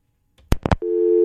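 Busy signal after a dropped phone call: a few sharp clicks on the line, then a steady, loud, unbroken tone that holds to the end.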